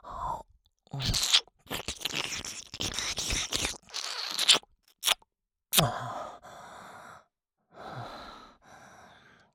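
Close, wet mouth sounds from an ASMR roleplay of ear licking and nibbling: many irregular smacks and crunchy bursts separated by breathy pauses and short silences.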